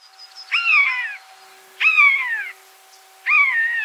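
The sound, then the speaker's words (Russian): Three loud mewing bird calls, a common buzzard's call and starling and jay imitations of it, each a drawn-out, harmonically rich cry slurring downward, separated by short gaps. “Для начала послушайте три голоса трех разных птиц. Конюк, скворец, сойка.”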